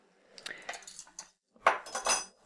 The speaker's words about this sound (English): Spoons. Wondering why I've got spoons. And a skirt hanger. So these are just things that I grabbed in my kitchen